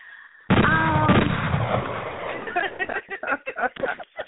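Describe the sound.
A burst of gunfire with whistling bullet ricochets, a loud dense barrage that gradually thins out, after which people begin talking over the fading noise.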